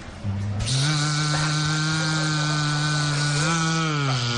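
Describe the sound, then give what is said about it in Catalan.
An electric drill bores holes into a wall of an old building inside a shop, a loud, sustained, buzzing motor whine that holds a steady pitch and shifts slightly near the end. “El Monzó fent forats aquí a la botiga del Barça. Fixeu-vos la diferència amb el martell.”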